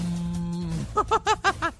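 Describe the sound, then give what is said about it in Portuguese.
A berrante, a cattle-horn trumpet, is blown in one steady, low, buzzing note that lasts under a second. Five short, rhythmic voiced bursts follow it. “pedindo um colega pra tocar um berrante, eu também sei tocar berrante, olha só.”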